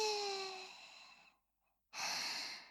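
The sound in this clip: Soft, close breathing in and out: two airy breaths separated by a short silent pause, the first slowly fading away and the second starting abruptly, faint overall.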